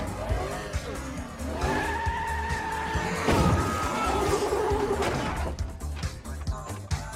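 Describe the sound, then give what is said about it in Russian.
A car speeding and running over a man in a film scene: sustained tire squeal over a low engine rumble, a sudden burst of noise midway, then rougher rattling noise. “Мужчину сбила машина, он еще жив. Машина на скорости давит человека.”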